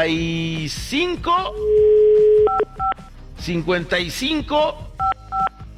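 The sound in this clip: Touch-tone beeps of a telephone number being dialed, short electronic tones in two quick groups, the first preceded by a steady tone, heard amid a person talking.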